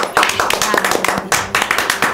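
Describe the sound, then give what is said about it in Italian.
Children clapping for themselves, a quick scatter of sharp hand claps with no steady rhythm, while young voices talk over and between the claps. “Bravi ragazzi, siete una gran rubrica di gossip. Fatevi un applauso.”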